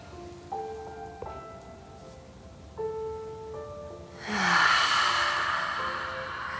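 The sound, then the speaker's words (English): A slow, airy exhale through the mouth during a guided breathing exercise: a soft, broad rush of breath that swells and then gently fades, over quiet sustained musical tones. “Exhaling through your mouth.”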